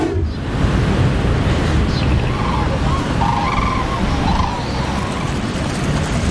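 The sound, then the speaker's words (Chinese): A motor engine roars on Poyang Lake in the morning: a loud, steady, broad rushing drone with a watery wash that holds for the whole stretch, without clear pauses. “早晨七点，静静的鄱阳湖面突然传来一阵机器发动的声音。”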